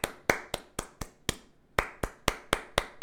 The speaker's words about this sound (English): We are just going to clap the rhythm of the word. So it would sound like,